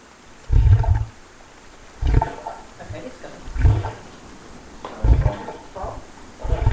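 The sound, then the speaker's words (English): Something climbing out of water and dragging a wooden leg: a slow, steady series of heavy low thuds about every one and a half seconds. Each thud is trailed by a rougher scraping tail, with fainter knocks in between. “Out the water. Someone dragging a wooden leg.”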